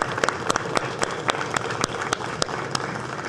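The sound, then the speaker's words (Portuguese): Applause for guests at a Senate session: many sharp, irregular hand claps from a group, steady and moderately loud throughout, with no voices over it. “Na minha cidade, a gente bate palma para convidados.”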